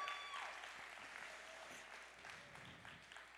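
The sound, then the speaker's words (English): A church audience applauds to welcome new people: a faint, continuous patter of many hands clapping that eases slightly in level toward the end. “Give all the new people a welcome to church. Give them a welcome.”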